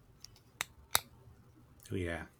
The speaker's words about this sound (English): it's got a good click. ASMR right there. Oh gosh, but it is such a cool pen